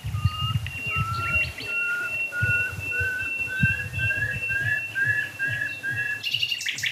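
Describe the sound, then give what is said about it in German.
A nightingale sings near dead oak trees. It repeats many clear whistled notes, each gliding slightly upward in pitch, in an even rhythm over a low rumbling background, and no talk is heard. “Oh, Nachtigall.”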